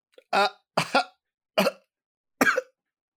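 Four hoarse coughs from a person with something caught in the throat, each a short harsh burst separated by brief pauses, the second a quick double.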